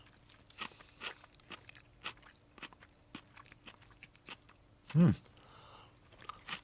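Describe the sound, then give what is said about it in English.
Someone eats forkfuls of Spirit Creek Farm sauerkraut. Many soft, crunchy chewing bites come in an irregular rhythm, mostly faint, with one louder burst of crunching near the end. “He's having the second one. He's ready to take a third one, folks. This is a very good sign. This is really good. You see? You took three forkfuls of sauerkraut.”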